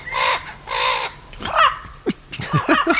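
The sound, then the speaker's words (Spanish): Harsh squawking calls from an Amazon parrot with multicoloured plumage: two long, raspy, loud cries, then a run of shorter, rapid, chattering notes. “el loro del género, ¿sí?, Amazona, que tenemos aquí. ¿Cómo suena ese precioso loro de plumaje de múltiples colores? Suena así.”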